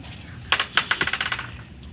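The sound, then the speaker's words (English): Four dice are rolled onto a surface during a tabletop role-playing game, making a quick burst of sharp, bright clicking and clattering hits that rattle on in a rapid string and die away. “Reroll 4 dice.”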